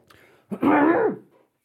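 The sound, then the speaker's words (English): A single throat clearing: a short, rough voiced burst lasting well under a second, with a quick faint sound just before it and silence after. “was that a sneeze or a cough? It was a clear in my throat.”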